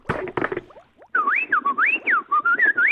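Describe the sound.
A voice imitates R2-D2 droid noises from Star Wars, whistling warbling chirps that sweep up and down in pitch, following a few short, rough vocal bursts at the start.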